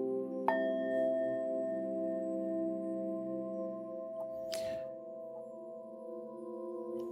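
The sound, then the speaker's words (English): A Tibetan singing bowl used for meditation is struck once near the start, then rings on as a long, steady, layered hum that stays clear and fairly soft to the end. “Here I have my Tibetan singing bowl, which in that part of the world is used for meditation.”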